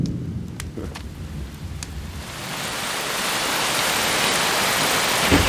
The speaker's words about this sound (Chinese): 这么大的雷啊，吓我一跳。哎呀，要下雨了。